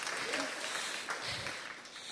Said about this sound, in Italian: Oh fratelli, questo non è un applauso appassionato. O lo facciamo appassionato o no, o niente.